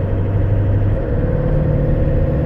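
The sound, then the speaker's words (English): Steady engine and road drone from inside a car on the drive home from work. It is a continuous, fairly loud low hum with no talking. “A little ranting and raving on the drive home from work.”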